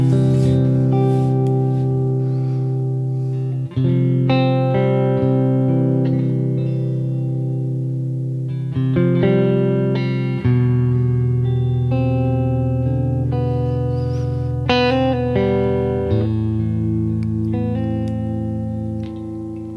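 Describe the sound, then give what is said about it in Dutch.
Electric guitar played through effects, loud and sustained with distortion, reverb and echo: ringing chords and held notes that shift every few seconds, with layered repeats and no talking. “Wat een onwijs mooie gitaar. Nou, ik heb hier een fragmentje”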